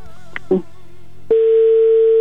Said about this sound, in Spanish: ya entró otra vez la llamada, ya está sonando.